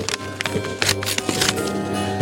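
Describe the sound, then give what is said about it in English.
A Christmas card envelope is opened by hand, with a few scattered crisp paper rustles and crackles over a low steady hum. “And this next one here, this next card, let's see, let's open this one up here.”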